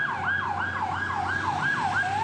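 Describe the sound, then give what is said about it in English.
Ambulance sirens wail in the town of Islahiye. Rapid, steady sweeps rise and fall in pitch over a low, rumbling background. “The air is punctuated by ambulance sirens, dust, and the smell of death.”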